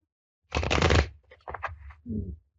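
Shuffling of a Lenormand oracle card deck: a dense, papery riffle lasting about half a second, then a few softer rustling shuffles of the cards.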